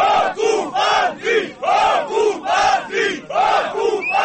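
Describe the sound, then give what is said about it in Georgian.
Several hundred protesters chant loudly at a barbed-wire fence being put up by Russian border guards in the village of Atotsi, Georgia, on the occupation line. Many rhythmic shouted bursts repeat in a steady, even pulse. “ამ შეძახილებით რამდენიმე ასეული მოქალაქე სოფელ ატოცში იმ მავთუხლართებთან მივიდა”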